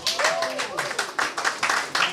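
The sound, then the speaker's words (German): Audience applause at a live music event, a run of rhythmic clapping bursts lasting about two seconds, with voices mixed in over the clapping. “Einen großen Applaus auch mal für das ganze Haus hier.”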